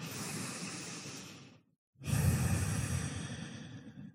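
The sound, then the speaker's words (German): Slow, deep breathing during a relaxation exercise: two long, airy breaths separated by a brief silent pause, soft and breathy with no speech. “Und dann nimm hier ein paar vertiefte Atemzüge ein und aus.”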